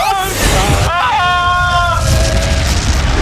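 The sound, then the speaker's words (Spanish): A loud crash boom from a video game as a helicopter slams into the player's jet, a burst of broad rumbling noise with voices shouting over it. “Aquí el helicóptero se ha chocado contra nosotros.”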